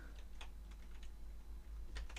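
Faint typing on a computer keyboard, with quick, irregular keystrokes in small clusters and a short pause before a final burst of taps.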